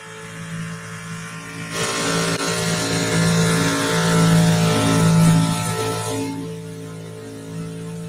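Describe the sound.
A race car's engine roars through a pass during a green-flag restart, its steady hum swelling into a loud, broad rush that peaks and then drops back to a lower drone.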